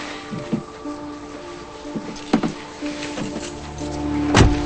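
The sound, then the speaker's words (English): A car door is shut with a heavy, low thud near the end, after a few softer knocks and rustles over a steady low hum. “He shuts the door and she feels things around her.”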